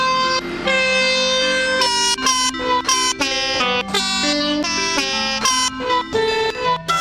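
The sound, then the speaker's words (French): Train horns of different pitches, sampled, cut and joined into a melody: a loud run of sustained, chord-like horn blasts that step between notes, each tone held before the next one cuts in. “il s'est pris la tête à sampler des klaxons de train de différentes tonalités et à les découper et les assembler pour reconstituer la mélodie.”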